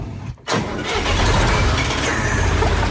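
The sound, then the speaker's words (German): A 1977 Fendt tool-carrier tractor with a front-mounted tipper starts. A brief dip and crank give way to the engine catching into a loud, steady rumbling run with a thin constant high whine above it. “Ein Fendt-Gerätetraktor mit Kipper vorne dran aus dem Jahr 1977.”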